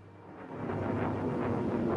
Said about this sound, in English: A plane taking off.